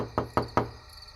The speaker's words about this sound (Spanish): Los mismos golpes más persistentes volvieron a sonar en la puerta.